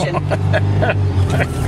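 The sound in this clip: Steady low engine drone from a station promotional ute being driven with a manual transmission, holding a constant hum under people talking.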